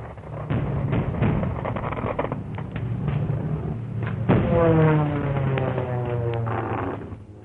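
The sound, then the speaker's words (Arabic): Air raid sound effect in an Egyptian radio drama set during wartime: a rumble of dull, repeated explosive thumps, then a sustained wailing tone that rings over the din. “يا نصيبتي غارة.”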